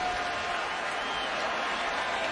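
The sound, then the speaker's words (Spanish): A baseball crowd cheers on its batter, a steady, dense roar of many voices that holds without a break. “El público aquí animando a su bateador.”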